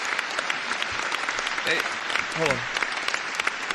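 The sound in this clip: Audience applause, dense and continuous throughout, with voices talking and calling out over the clapping.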